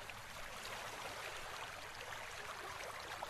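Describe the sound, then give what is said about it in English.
Ocean waves breaking, heard as a continuous, even wash of rushing water noise, fairly quiet and without distinct individual crashes. “As you drift now to sleep, lulled by the low thunder of the waves, let me pray for you.”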